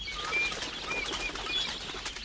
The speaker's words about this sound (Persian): از گنجشکا لابلای بوته های بلال این طرف و اون طرف میپرند.